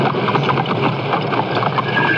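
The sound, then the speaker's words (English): A horse-drawn carriage speeding through driving rain in a radio drama, with rapid rhythmic hoofbeats under a loud, steady hiss of rain. “and why, in a driving rain, he speeds his carriage to Hightown.”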